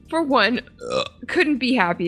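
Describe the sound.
A croaky, drawn-out burp with a short phrase spoken through it, loud and close, rising and falling in a few voiced pushes.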